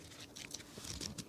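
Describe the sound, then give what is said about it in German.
Soft papery rustling as a book's pages are turned: a quick run of light crinkles and flutters, faint and irregular, with no voices. “Na, dann blättern wir weiter im Buch.”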